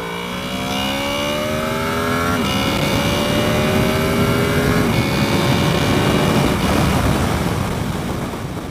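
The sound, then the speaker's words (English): A VTEC engine revving at high rpm, with a metallic valve sound at the top end: a loud continuous engine note climbs in pitch, drops twice and climbs again, over steady wind noise. “The metallic sound is the VTEC valves. That's what you're hearing.”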